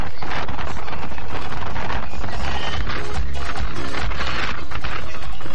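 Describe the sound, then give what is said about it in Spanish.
Strong wind blowing on arrival in Los Ángeles, buffeting the microphone with a loud, continuous roar and gusty rumble throughout, with no voices. “Amiga Karina, aquí vamos llegando a Los Ángeles. Hoy harto viento en Los Ángeles.”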